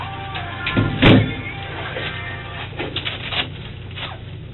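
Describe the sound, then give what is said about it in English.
Lifting tape pulled off its roll in one short, rasping rip that stands out over a low, steady background, followed by a few fainter rustles. “Just some lifting tape.”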